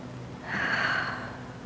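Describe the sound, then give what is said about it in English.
A group of people seated together take one very deep breath in unison, a soft, broad rushing hiss that swells up from a quiet start, holds, then slowly tapers away, with no talking. “Together we all take a very deep breath.”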